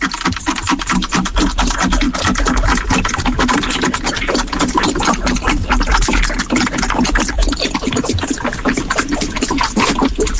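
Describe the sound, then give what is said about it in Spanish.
A sewing machine runs in a rapid, even mechanical clatter, loud and continuous throughout, with a dense stream of fast ticking strokes. “Eso es una máquina de coser.”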